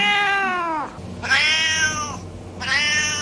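A cat meows three times, loud drawn-out harmonic calls separated by short pauses, each bending downward in pitch at the end, the last one cut short.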